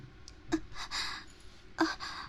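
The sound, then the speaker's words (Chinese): Heavy breathing from someone winded after dancing: a few quick gasps and breathy exhales, faint and without speech. “我喘气太厉害了”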